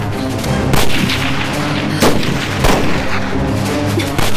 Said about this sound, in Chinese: 糟了，敌人提前开火，先不要动手。